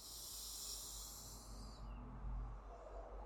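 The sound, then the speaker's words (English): A person draws a deep inhale through the nose during guided breathwork, a faint, airy hiss that fades out partway through and leaves a low, quiet rush. “We'll take an inhale here.”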